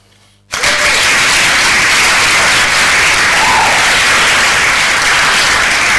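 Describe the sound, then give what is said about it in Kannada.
Loud, dense applause rewards listeners who answered a quiz question correctly, bursting in after half a second of near silence and holding steady as a continuous wash of many hands clapping to the end. “ಸರಿಯಾದ ಉತ್ತರಗಳನ್ನು ಕಳಿಸಿದಂತಹ ಎಲ್ಲ ಕೇಳುಗ ಮಿತ್ರರಿಗೆ ನಮ್ಮ ಕಡೆಯಿಂದ ಚಪ್ಪಾಳೆಯನ್ನ ಕಳಿಸ್ತಾ ಇದ್ದೀವಿ.”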